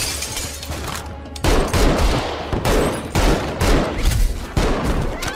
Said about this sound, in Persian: بهشون شلیک کنید. با کشینه شد بمیرید لعنتی ها. منو بگیرید، دارم شلیک میکنم.